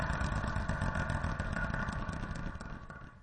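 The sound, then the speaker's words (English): A wheel spun to pick a random number clatters in a rapid, even stream of faint ticks that gradually fades toward the end. “This is a segment where I spin a wheel to get a random number”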